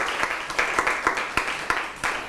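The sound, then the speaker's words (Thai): Applause for a group of students in a classroom: many people clap together in a steady, dense patter of sharp claps with a few louder accents, and no talk over it. “ปรบมือให้กลุ่ม1นะครับ”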